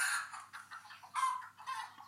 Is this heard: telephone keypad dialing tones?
no